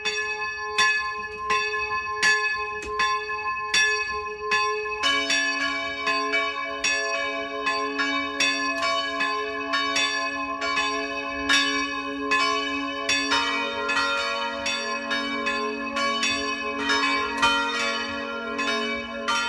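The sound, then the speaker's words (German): Village church bells in Enkering, in Eichstätt district, ring the midday chime: a loud, continuous peal of several bells at a steady rhythm, with more bells joining partway through, and no voices. “Es ist 12 Uhr. Das Mittagsläuten kommt heute aus Enkering, einem Dorf im Landkreis Eichstätt, das heute zum Markt Kinding gehört.”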